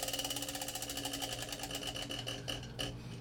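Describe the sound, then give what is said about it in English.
A prize wheel is spun in a drinking game among friends, giving a rapid, steady run of faint ticking clicks throughout. “Spin the wheel. Give it a spin.”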